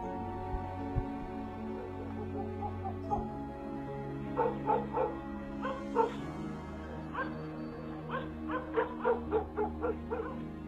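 A yellow dog on a porch at night barks wildly, letting out many rapid, sharp barks and yips mixed with whimpers, the outburst growing denser through the second half.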